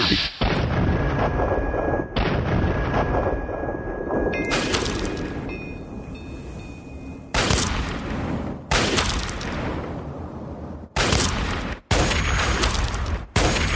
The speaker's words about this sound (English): Wow, this sniper rifle fires quite fast. There's no. I guess it's kind of a semi-automatic.